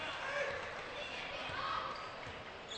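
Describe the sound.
A basketball dribbled on the court during a game, with soft repeated bounces mostly buried under steady, loud crowd noise.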